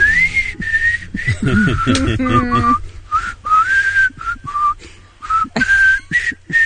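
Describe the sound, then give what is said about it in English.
Two people give an amateurish whistled rendition of pop hits. The wavering, breathy melody is made of short held notes split by quick pauses, with a brief burst of other sound partway through. “Kevin and Bean whistle the hits. Sort of. Sort of whistle.”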